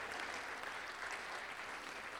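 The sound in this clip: A church audience claps hands during a worship service, a dense, steady wash of clapping that runs quietly and evenly through the whole moment with no clear breaks.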